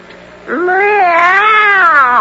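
A cat meows in one long, drawn-out, wavering call that rises, dips and swells again before trailing off. The call is loud and clear, with no other sound around it.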